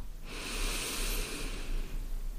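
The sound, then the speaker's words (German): Deep belly breathing during a guided relaxation exercise: one long, airy breath swells soon after the start and holds steadily before thinning out near the end, heard alone with no talk. “Drei tiefe Atemzüge können wir gerne gemeinsam machen. Dass du tief einatmest in den Bauch”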